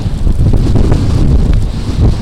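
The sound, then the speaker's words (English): Loud wind outside a homeless day center on North Ann Street in Asheville during a cold spell, a steady roaring rush that buffets the microphone with low rumbling gusts and no talk. “Outside Homeward Bound's A-Hope Day Center on North Ann Street in Asheville, the wind is loud.”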